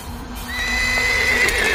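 A horse whinnies outside a house as strong winds carry dust, one loud, drawn-out neigh rising in from about halfway and holding steady over a low rumble.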